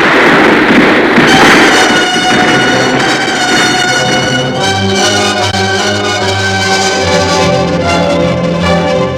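Dense volley of gunfire in a dramatized historical battle scene with Morelos's insurgent troops, loud, continuous crackling with ringing tonal layers running throughout.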